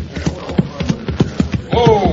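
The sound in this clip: Horses' hooves clip-clop in a steady, uneven rhythm as a sheriff and deputy rein in their mounts to rest, with a man's voice rising over the hoofbeats at the end.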